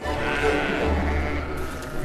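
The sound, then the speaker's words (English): North Country mule sheep bleating in an auction ring, calls blending into a steady, loud wash of noise across the whole clip. “North Country mules are very calm sheep. But when they came into the auction ring, there was some evidence to suggest they're not.”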